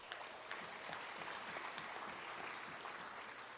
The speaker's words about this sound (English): I accept the applause, but that's always weird.